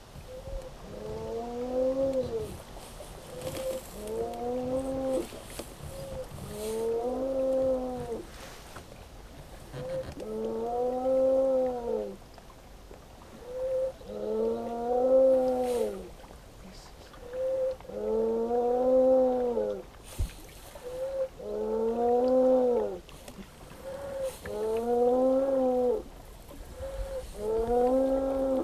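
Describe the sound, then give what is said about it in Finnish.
Arching harmonic moans from a 30-year-old Saimaa ringed seal calling from a rock den crevice on Lake Saimaa. Many calls repeat in a steady rhythm, each rising and then falling in pitch, fairly faint and with no voices. “Tuollaisesta louhen kolosta kuuluu Eeva, Saimaan norpan ääni.”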